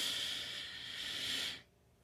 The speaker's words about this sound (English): We are going to take a deep breath. Come on, breathe in.